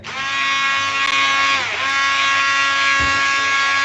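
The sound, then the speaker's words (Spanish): Paper-recycling machinery with a cylinder for stripping ink from paper runs with a loud, steady motor drone full of buzzing harmonics, dipping briefly near the middle before continuing, with no voices. “A ver, vamos a poner en marcha la maquinaria, ¿de acuerdo?”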